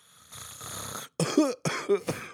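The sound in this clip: A voice imitates a constant cough: a breathy, raspy stretch followed by two harsh, throaty voiced coughing bursts that break off abruptly, with no words spoken.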